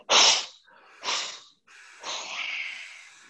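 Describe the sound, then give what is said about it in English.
Three forceful breaths are pushed out through the mouth during a breathing exercise, heard as loud, breathy rushes of air. The first is sharpest, and the third is longer and more drawn out. “Exhale 3 times through the mouth, coming forward, hands to thighs.”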